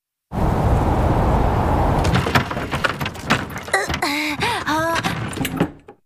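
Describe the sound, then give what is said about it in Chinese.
A door is shut against a sandstorm in an animated story. Loud rushing wind noise gives way to a few knocks and thuds, then brief voiced exclamations follow. “门总算关上了。”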